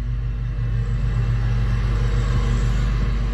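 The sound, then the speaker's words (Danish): A neighbour's large lawnmower drives around, its engine giving a steady, deep rumbling drone that holds at an even loudness throughout, with no voices. “Det er der, hvor, hvor naboen har sådan en, en større græsslåmaskine, og sådan kører lidt rundt.”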